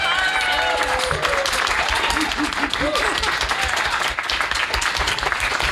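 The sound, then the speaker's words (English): Audience applause and clapping for volunteers at a science talk. A thick, continuous wash of many hands clapping holds steady throughout, with some voices mixed in. “Can we get a huge round of applause and clapping for these people?”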